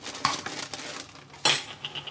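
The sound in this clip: Knife chopping pickles makes faint, scattered taps and light clinks against the board. Two sharper hits stand out among softer clicks.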